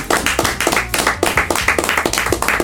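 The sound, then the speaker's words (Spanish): Applause for a returning team member on a talk show: quick, even hand clapping with many claps in a steady rhythm, loud and alone with no voices over it. “Un aplauso para Rentón Martínez”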